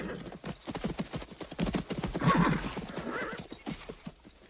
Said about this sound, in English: his men gallop into the clearing